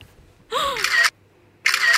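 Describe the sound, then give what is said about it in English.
Two camera shutter clicks taking a selfie, each a short, bright burst about half a second long, separated by a brief pause. “Oh my god, a selfie would be amazing.”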